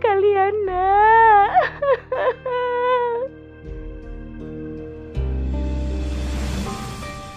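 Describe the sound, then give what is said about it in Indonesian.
A woman cries in high, wavering wails broken by a few short, choked sobs, then gives way to a low, steady hum. “sang ibu terus menangis sepanjang malam”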